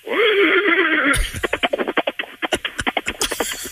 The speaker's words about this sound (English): Okay. That's good. The gallop, not bad. The whinny, a little.